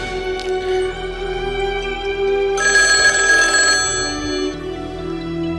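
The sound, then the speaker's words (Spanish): A telephone rings with an incoming call, a steady electronic ringing that grows brighter and louder partway through before settling back. “Buenas tardes, tenemos otra llamada.”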